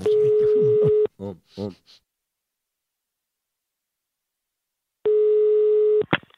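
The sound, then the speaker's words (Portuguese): Telephone line tones as a call is placed: a steady, buzzy dial tone for about a second, a few short tone bursts, a long silence, then another long tone that ends with a click. “E agora eu vou ligar pra Wanda.”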